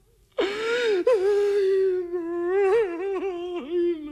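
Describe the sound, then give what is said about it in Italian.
A single voice lets out desperate crying and wailing, starting with a sharp gasp and then a long, sustained moan whose pitch wavers and dips several times. “Perché questi lamenti disperati?”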